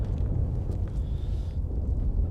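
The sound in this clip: An explosion leaves a deep, sustained rumble that stays steady and dense throughout.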